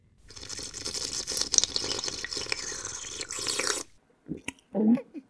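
Someone drinking cooking sherry: a long, noisy stretch of slurping and gulping, then a pause and a few brief, satisfied vocal noises.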